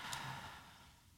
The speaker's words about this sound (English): Deep breath in and let it out.